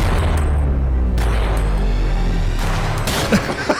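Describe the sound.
Gunshots fire back to back in a Hallmark movie scene. A few sharp, bursting cracks stand out over a steady low rumble, with the shots clustering toward the end.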